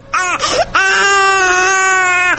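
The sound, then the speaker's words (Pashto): A baby cries loudly, giving a couple of short wails and then one long, sustained, harmonic-rich cry that continues without a break. No other voices are heard. “ماشوم خو ژاړي، اوس به یې غلی کړم.”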